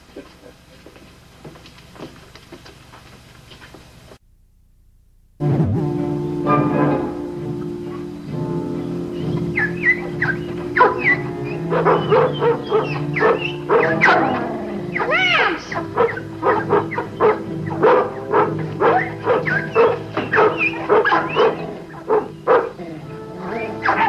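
A dog barks many times in bursts, with some higher yipping notes, over a steady tonal hum that runs throughout after a brief quieter opening.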